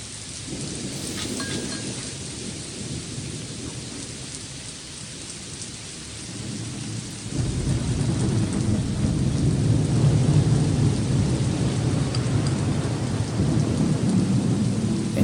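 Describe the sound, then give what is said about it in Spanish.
Rain pours steadily with deep rolling thunder, a continuous hiss and low rumble that swells noticeably louder about halfway through and stays heavy to the end. No voices. “Me encanta el ruido del trueno.”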